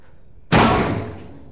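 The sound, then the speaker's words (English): A machine's lid slams shut in one sharp, loud impact, followed by a rattling decay that fades over about a second, heard alone. “She looks back, and the machine's lid has slammed shut.”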